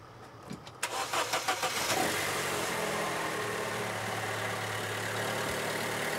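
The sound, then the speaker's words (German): Car starter solenoid clicking as the key is turned on a vehicle with a weak battery: a rapid burst of sharp clicks early on, followed by a steady, even noise that continues to the end. “das Klackern ist, wenn Sie am Schlüssel drehen, der Magnetschalter vom Anlasser. Der fährt da nur so außen ein, weil die Batterie das halt dann nicht schafft”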